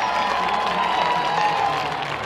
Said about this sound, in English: He's getting a huge ovation down there. My goodness, they're all on their feet. And they're cheering him on